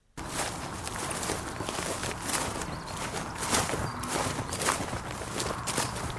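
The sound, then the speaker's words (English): Footsteps walking across a newly reseeded multi-species farm sward of chicory, plantain, clover and red clover, a continuous rustling tread of many soft steps at a steady level. “So what are we walking on? A newly reseeded multi-species sward.”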